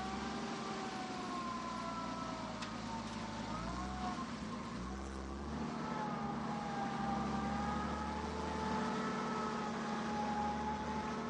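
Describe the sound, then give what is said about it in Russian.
A canvas-covered truck driving slowly out of a yard: a continuous low engine rumble that shifts in pitch a few times as it labours along, steady in loudness throughout. “Со двора медленно выезжает грузовик с тентом. Ворота за ним закрываются.”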